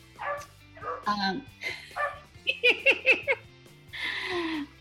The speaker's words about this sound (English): Sorry about the barking dog.